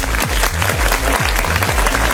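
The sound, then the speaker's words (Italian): An audience applauds a DJ with dense, steady clapping that stays loud and even throughout. A regular low thumping pulse beats under the clapping the whole time. “Facciamo un applauso a DJ Tiga”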